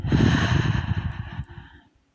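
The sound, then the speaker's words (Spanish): A long, deep exhale during a guided breathing exercise: a broad, breathy rush of air that holds steady and then gradually fades out into silence. “y vas despertando tu cuerpo. Inhala, exhala.”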